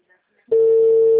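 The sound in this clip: A telephone line tone sounds while a number is dialed on a phone. After a brief near-silence, a single steady tone starts abruptly and holds loud and unchanging to the end.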